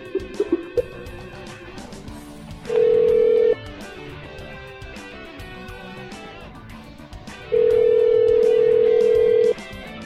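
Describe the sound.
Ringback tone while placing an outgoing phone call: a few faint clicks at the start, then two steady mid-pitched tones, the first short and the second about two seconds long, over a low background hiss.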